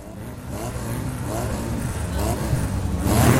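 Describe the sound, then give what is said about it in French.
A motorcycle engine revs with a mid-pitched droning growl that builds gradually louder toward the end, with voices over it. “La moto. Et ouais, c'est la moto. Là, cette fois-ci, c'était la moto.”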